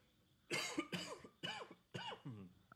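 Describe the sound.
Harsh coughing on a screened-in porch after someone inhales a bug: a quick series of sharp, throaty bursts with short gaps between them, clear against a quiet background.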